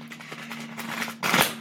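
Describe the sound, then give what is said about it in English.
A card is pulled from a tarot deck: quiet papery rustles, then one short, louder swish of the card sliding free near the end. “let's start by pulling a card.”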